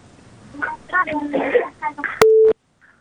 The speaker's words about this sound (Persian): یک تماس فکر کنم وصل است.